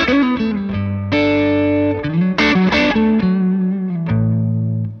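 Overdriven electric guitar plays a cranked lead tone on the bridge pickup through an overdrive pedal. Sustained, gritty notes shift pitch across a short continuous phrase, loud and alone with no talk.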